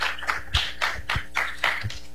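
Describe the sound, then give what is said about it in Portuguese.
Applause from an audience at a church gathering, heard as a fairly quiet, sparse run of hand claps that come in soft bursts at a steady, rhythmic pulse. “Uma salva de palmas para vocês.”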